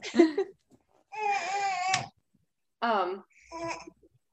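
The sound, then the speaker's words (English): A newborn baby boy makes cooing, babbling noises rather than crying: four short tonal vocal bursts, each with a wavering pitch, separated by quiet gaps. “He just discovered that he can make noises besides crying. So that's all he does now when he's awake.”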